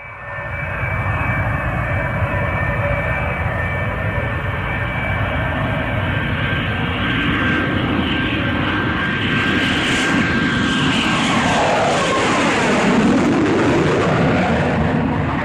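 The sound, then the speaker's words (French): A loud, steady engine roar from an airplane flying overhead during a demonstration flight at an air show. A whining tone sweeps down in pitch near the end as it passes. “à Saint-Denis, et là, vous entendez cet énorme bruit. Vous passez une tête par la fenêtre de l'appartement et vous apercevez un avion en”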